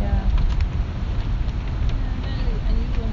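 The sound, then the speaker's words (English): Wind blowing outdoors makes a loud, steady low rumble that buffets the microphone throughout, with faint voices underneath. “Unusual noise. Not easy with the wind.”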